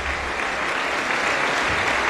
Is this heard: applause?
yes